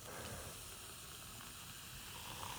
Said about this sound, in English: That's the sound of me pouring Coca-Cola into some Kraken rum.